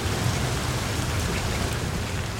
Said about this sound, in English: A gust of rain thundered against the skylights like a monsoon blowing in.